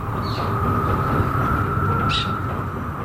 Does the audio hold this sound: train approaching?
yes